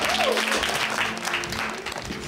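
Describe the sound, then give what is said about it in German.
Audience clapping welcomes a guest being introduced at a test event, a moderate, continuous patter of many hands with voices audible over it. “Also, Applaus für einen guten Freund.”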